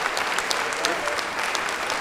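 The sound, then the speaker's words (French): Audience applauding two assistants at a choral concert, a dense steady patter of clapping with sharp individual claps standing out, continuous and fairly loud. “Je voudrais qu'on les applaudisse, c'est Yann et Eric.”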